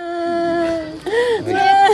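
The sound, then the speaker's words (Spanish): A mother wails inconsolably for her 21-year-old son, killed in sudden floods between Nepal and Tibet; loud, sustained voiced cries bend up and down in pitch with a brief break midway. “Esta madre llora desconsolada por su hijo de 21 años que murió en las repentinas inundaciones entre Nepal y el Tíbet del pasado miércoles 26 de agosto.”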